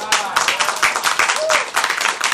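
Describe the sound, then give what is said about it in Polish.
Audience applause at a church worship gathering, a dense, brisk patter of clapping running throughout, with a voice also heard over it. “Brawa dla Agaty, w ogóle ej.”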